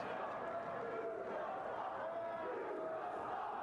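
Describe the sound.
A wrestling crowd at the 1995 Heatwave '95 event jeers a wrestler called Stormin' Norman. Many voices merge into a dense, steady roar that stays faint and even from start to finish.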